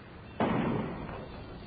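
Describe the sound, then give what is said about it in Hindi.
A gunshot during a riot in the city cracks out as one sudden loud burst, then decays slowly into a dull, rumbling tail. “क्यों जी, ये गोली की आवाज है?”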